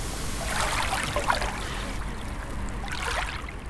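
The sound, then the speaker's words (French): Calm sea at Brest, a soft, steady wash of water with two gentle swells of surf noise rising and easing, fairly quiet and without voices. “Quand je me rends à Brest pour le festival Longueur d'onde, la mer est plutôt calme.”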